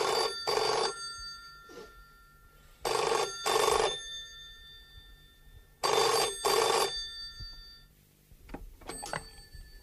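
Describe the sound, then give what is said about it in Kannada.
An office telephone bell rings in the morning in three loud double bursts separated by short pauses, then a few brief clicks and clatters follow. “ಒಂದು ದಿನ ಬೆಳಗ್ಗೆ ಮಾದ office ತಲುಪ್ತಾ ಇರುವಾಗಲೇ ಫೋನಿನ ಕರೆಗಂಟೆ ಶಬ್ದ ಕೇಳಿಸಿ ಬೇಗನೆ ಹೋಗಿ ರಿಸೀವರ್ ಎತ್ಕೊಂಡ.”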